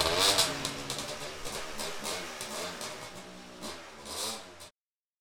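A motor vehicle driving off, its engine a wavering mid-pitched drone whose revs rise and fall a few times before cutting off abruptly.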